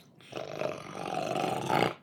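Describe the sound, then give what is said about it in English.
A voice imitates the deep guttural growl of a caged lion being fed meat on a stick. It is a loud, rough, sustained growl lasting nearly two seconds, swelling slightly toward the end before cutting off. “And as she went to hold her little stick with meat on it through the cage, it goes like this big guttural.”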